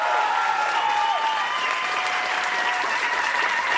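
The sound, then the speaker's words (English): Audience applause for a comedian at a live comedy show: dense, steady clapping from a crowd that holds at an even level from start to finish. “Ladies and gentlemen, please have a huge hand for Mike Furman.”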